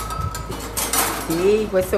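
Cooking utensils clatter and clink in a restaurant kitchen in Tarquinia, north of Rome, as a few light metallic knocks and chinks over a soft background murmur.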